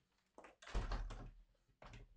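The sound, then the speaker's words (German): A window being closed gives a few dull thuds and knocks, with a loud cluster of bumps in the middle and one more knock near the end, separated by quiet gaps. “ich muss mein Fenster kurz zumachen”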